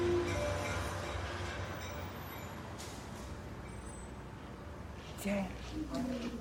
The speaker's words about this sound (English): The train pulls into a station.